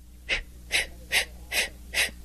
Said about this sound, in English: you put your hands together in the front of your body and take a long deep breath and let it out like so,